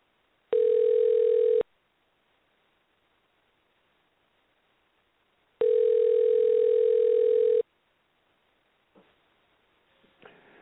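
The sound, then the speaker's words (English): Telephone tones sound while a number is dialed: two loud, steady, buzzing bursts, the first about a second long and the second about two seconds, separated by near silence, then a few faint clicks and rustles at the end. “Got to dial in his number.”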